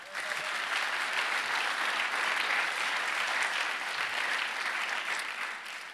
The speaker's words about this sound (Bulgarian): А би трябвало да ръкопляскате тук.